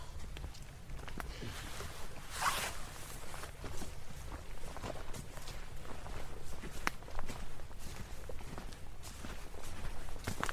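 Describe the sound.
Footsteps of someone walking outdoors: a steady run of soft, scuffing steps over a constant low background rumble, with no voices.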